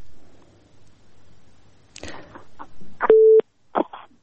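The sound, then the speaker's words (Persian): A telephone line tone sounds after a listener's call to a call-in show is cut off. Crackling clicks and bursts come first, then one loud, steady, mid-pitched beep, then a short final burst. “بله تماسی شنونده ما قطع شد و میریم به تماس دیگه شنونده ما.”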